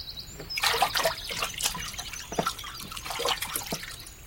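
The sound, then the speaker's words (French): Water trickles and splashes around a person standing naked in a river, in irregular liquid gurgles and drips that come in small bursts. “L'eau qui m'entoure est sans malice.”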